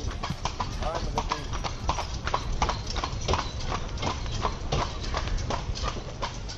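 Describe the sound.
Clip-clop of a trotting horse pulling a carriage on a promenade in Vrnjačka Banja during carnival week: quick, even hoofbeats continue throughout, with talking over them.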